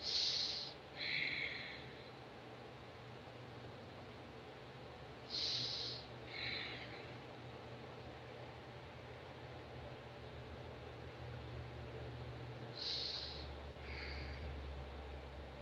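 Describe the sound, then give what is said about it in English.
Deep breaths taken during a guided meditation: three faint, airy breaths, each a short hiss drawn in and let out, spaced well apart over a low steady hum, with no talking. “take a couple of deep breaths”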